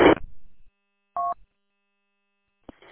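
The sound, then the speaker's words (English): Alert beep from a radio repeater reporting a fault with its antenna or power amplifier: one short, steady electronic tone with brief noisy bursts before and after it, separated by silence. “somebody around here would know what that double beep meant”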